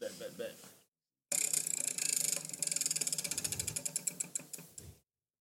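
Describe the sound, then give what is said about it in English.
A prize wheel spun in a word game: a long run of rapid, sharp ticks from the pointer striking pegs. The ticks start dense and end abruptly when the wheel stops. “So what we do is you spin the wheel. What you do is spin the wheel.”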